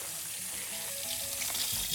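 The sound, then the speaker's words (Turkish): Running tap water pours into a kitchen sink as hands are washed during cooking, a faint, steady hiss with light splashing and no talk. “Ben de bir elimi yıkayayım.”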